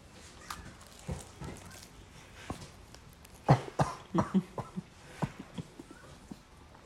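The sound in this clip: Coughing after accidentally inhaling a sip of a coffee-flavoured drink: a few soft sounds give way to a fit of many sharp, rough coughs in an uneven burst, fading into quieter breaths.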